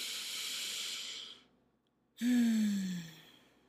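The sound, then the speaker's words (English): A person takes a slow, deep inhale, pauses briefly, then breathes out louder, ending in a soft voiced sigh that falls in pitch. The breath is heard alone. “Let's take a deep breath.”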